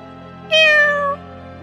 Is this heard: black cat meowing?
yes

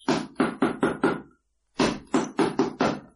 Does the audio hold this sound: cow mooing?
no

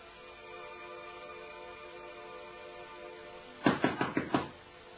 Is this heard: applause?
no

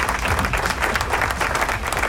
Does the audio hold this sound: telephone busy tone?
no

